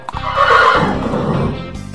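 A horse whinnies in one long, loud, quavering neigh that lasts over a second, with no voices.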